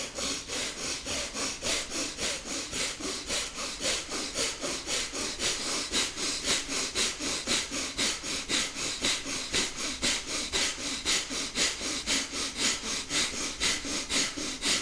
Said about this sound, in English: And you want to use that with your belly. So your belly expands and contracts. Yeah, and you'll breathe out forcefully through your nose. You do it for about a minute.